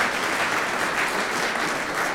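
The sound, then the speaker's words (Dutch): Audience applause welcoming the music group Musicians Without Borders, a continuous, even wash of many hands clapping with no break throughout. “Maar eerst een applaus voor deze groep Musicians Without Borders.”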